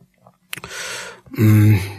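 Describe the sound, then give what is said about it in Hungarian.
A voice imitates throat clearing: a breathy, rasping rush followed by a short voiced grunt, heard alone. “Krákogott, köszörült a torkát, végre kibökte.”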